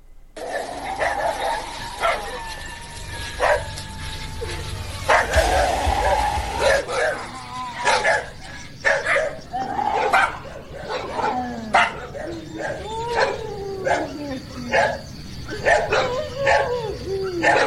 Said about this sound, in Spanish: se ponen los perros. Digo, siento mucho miedo. Yo que justo me baño en la noche, así se escuchan.